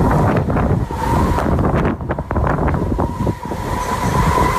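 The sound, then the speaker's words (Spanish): Strong tramontana wind blowing at Portbou, a loud continuous roar with gusty buffeting on the microphone and a steady whistling tone running through it, without talk. “la tramontana no sopla en Portbou vive la tramontana. Vive. Vive. Aquí vive la tramontana.”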